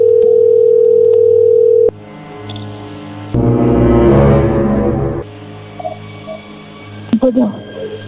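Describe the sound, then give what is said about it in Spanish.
A steady, loud telephone dial tone holds for about two seconds while a call is redialed, then a click cuts it off. A louder noisy stretch and a few scattered clicks follow. “A ver, se está marcando de nuevo.”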